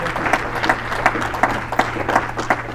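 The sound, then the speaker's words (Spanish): Congregation clapping together during praise at a bilingual church service, a steady rhythmic beat of many hands at roughly three claps per second over a low, constant hum. “Alguien dar un aplauso fuerte al Señor. Give a praise with your hands.”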